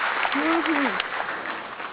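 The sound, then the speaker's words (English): Studio applause for a guest musician: a dense, steady wash of clapping that holds level, then eases slightly toward the end, with a brief vocal sound rising over it early on. “You definitely deserve that applause.”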